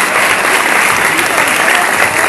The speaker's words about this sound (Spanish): Damos el aplauso para la doctora.